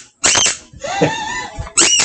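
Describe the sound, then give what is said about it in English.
Squeaks from a squeaky toy a cat is playing with: a few high, tonal squeaks, the middle one longer and drawn out, separated by brief gaps. “Stop playing with my kitty. I forgot I have a squeaky. I don't know where he found the squeaky.”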